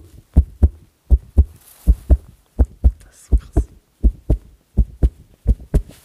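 Foley heartbeat sound effect made with a leather cloth, a steady run of eight low double thumps, each pair a quick lub-dub, evenly spaced and fairly loud, with no talking.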